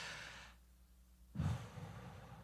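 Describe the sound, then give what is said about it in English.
Deep breath drawn in: faint, soft airy hiss, a short breath, then after a quiet pause a longer, slightly louder inhalation. “Do it for a second. Take a deep breath in.”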